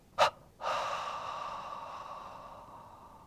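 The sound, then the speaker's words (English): Two exhalations through the mouth during a guided relaxation breathing exercise: first a short, sharp puff, then a long breathy outbreath that slowly fades, heard alone. “Please exhale through the mouth with a double exhalation.”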